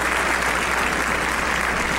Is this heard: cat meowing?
no